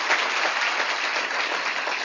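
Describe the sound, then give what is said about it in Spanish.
Sustained audience applause for an e-commerce team: dense, even clapping from many hands that holds at a steady loudness throughout, with no talk over it. “Vamos a dar un aplauso a todos los diamantes de e-commerce que están aquí.”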